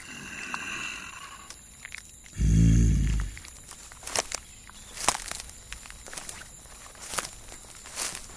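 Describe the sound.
A Sasquatch walking away after eating a bag of trail mix, heard as a few spaced, crunchy footfalls over a hissing background, preceded by a deep, rumbling thud.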